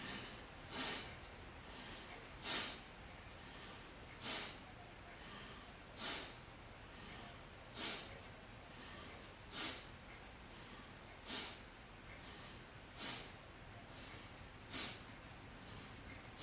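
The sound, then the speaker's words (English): Deep breathing in and out, heard as a quiet, steady series of short breathy bursts, about nine of them, evenly spaced and repeating at a regular pace with no talking. “we're just going to breathe in nice and deep and then exhale completely. And now we're going to inhale.”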